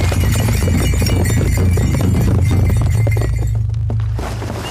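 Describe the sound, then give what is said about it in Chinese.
Horse hooves gallop in a rapid, dense, rhythmic pounding as a rider urges the animal on. The loud beat runs steadily, then thins and fades near the end. “宗保 驾 快走 驾 驾 驾 驾 驾 驾 驾 驾。”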